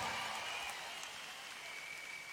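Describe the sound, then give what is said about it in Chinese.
Audience applause for a live band at a show, a steady dense wash of clapping that holds nearly even and eases slightly, with no talk over it. “再次掌声俾我哋嘅 band”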